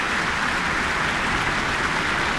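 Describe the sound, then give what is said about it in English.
Steady applause from a concert audience clapping for a full symphony orchestra after an overture, a dense, even wash of hand claps held at constant loudness throughout with no voices. “Asking the entire orchestra to stand for warm applause in the Michael Fowler Centre.”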